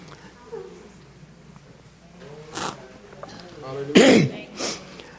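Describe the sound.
Throat clearing and coughing from a tickle in the throat, a few short rasping bursts spread over several seconds, the loudest carrying a brief voiced hum.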